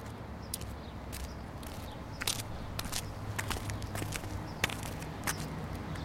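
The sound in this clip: Footsteps of a small group walking in a children's audio story: soft, irregular crunching steps with light crackles over a faint, steady background hiss.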